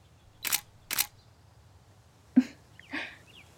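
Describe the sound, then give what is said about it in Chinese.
Camera shutter clicks as photos are taken, four short, crisp snaps in two pairs with a pause between the pairs, alone over quiet background. “你快对着姐姐拍照呀。”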